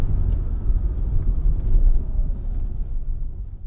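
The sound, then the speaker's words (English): The engine of an Aston Martin DB5 car shifts back down to first gear with a continuous, deep rumble that swells briefly near the middle and then settles. “Back down to first gear.”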